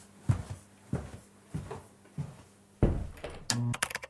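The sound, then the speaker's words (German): Dull clicks and thunks from a button being pressed to start recording come as a run of evenly spaced taps, then a louder, denser clatter near the end. “Ja, drück hier auf den Knopf und dann kriegen wir das schon irgendwie hin.”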